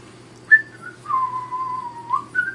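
A person whistles a short tune during a tabletop role-playing game session: a few clear, high notes with a long held tone in the middle, alone with no talk.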